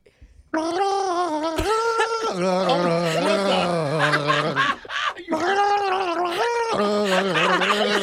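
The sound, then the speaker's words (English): A man gargles while singing a slow Christmas song, producing a bubbling, warbling voiced melody with wavering pitch. It is loud and continuous, with a brief break near the middle. “slow songs and gargling don't go together.”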